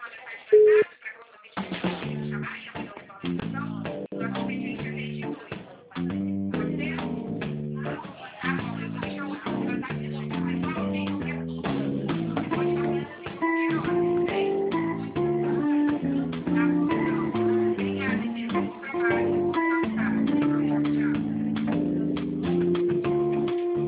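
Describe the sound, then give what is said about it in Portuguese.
Telephone hold music plays over a phone line while a caller waits on hold: a thin, narrow-band melody of repeating notes that continues steadily, with a few brief dips in level. “vou colocar em espera, já falo contigo, tá?”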